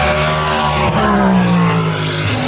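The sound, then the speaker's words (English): Sports racing cars roar along the Mulsanne Straight at Le Mans as they brake and accelerate. The loud, sustained engine note shows a brief dip and a shift in pitch partway through, then the harmonic whine holds steady. “Just listen to the audio now of the cars as they brake and accelerate up the”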